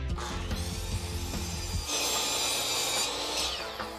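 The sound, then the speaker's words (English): A saw cutting wood on a patio: rasping strokes at first in a rhythmic back-and-forth, then a steadier, harsher grinding stretch before easing off. “Mark saws wood on the patio.”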